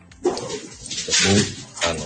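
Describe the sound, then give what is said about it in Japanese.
A dog barks and fusses in a few short, rough, agitated bursts, the loudest in the middle, with quieter restless noise between them. “恒例のですね、はい、犬が騒ぐという、現象に”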